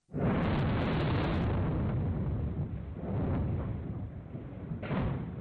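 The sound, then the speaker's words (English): Sonified seismometer recording of the magnitude 9 earthquake in Japan in 2011: a sudden, loud, explosion-like roar of deep rumbling that holds, swells again, and slowly fades, with a fresh burst shortly before the end. “If you were to convert that to a sound file, the magnitude 9 earthquake in Japan in 2011 would sound like this.”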